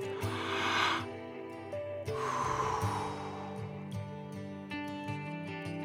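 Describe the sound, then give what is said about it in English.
Two deep breaths, each a soft rushing burst of air, separated by a pause and heard over sustained background music. “So today, let's take a few deep breaths”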